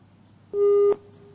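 A telephone line tone as an incoming call connects, a single steady mid-pitched beep lasting under half a second, followed by a faint lingering hum.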